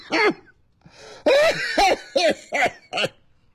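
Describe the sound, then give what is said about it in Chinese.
Harsh, voiced coughing in a run of repeated bursts, one longer fit followed by several short barks, fairly loud and heard alone with no talk over it. “那位说天暖和了你还咳嗽”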